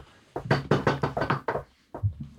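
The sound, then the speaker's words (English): People knocking on wood: a quick run of hollow knocks, a short gap, then a couple more, loud and clear with no talk over them. “No one in this room, everyone knock on wood right now.”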